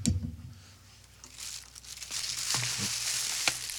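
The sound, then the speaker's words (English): A cake package rustles, crinkles and tears open as someone rips into a set of five cakes. The plastic crumples loudly in bursts, then sharp tearing builds into continuous crackling. “An entire set of five deep and delicious cakes. I'm gonna have to tear into this.”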